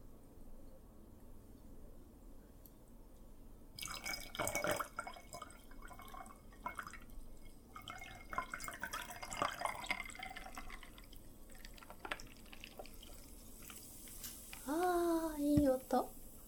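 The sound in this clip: Fizzy crackling and dripping as sparkling water is poured from a freshly opened bottle into a glass, soft and irregular over a steady low background hiss.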